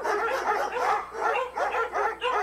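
Dogs barking in a quick, continuous run of barks and high yips, fairly loud and with no talk over them.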